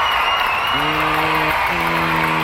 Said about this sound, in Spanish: ¡Aplauso, mi querido público!